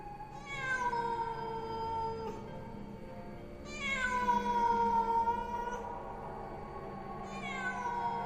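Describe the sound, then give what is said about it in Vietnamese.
A cat meows outside in three long, drawn-out, wavering cries spaced a few seconds apart, moderately loud with no voices. “Tiếng con mèo kêu lên làm cho ông Linh và thằng Bửu giật cả mình.”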